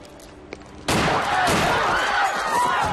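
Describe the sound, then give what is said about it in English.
Gunshots ring out at a city street corner: after a quiet stretch with one faint click, a loud, dense burst of gunfire erupts and carries on without pause to the end. “Negative, sir. Somebody's shooting.”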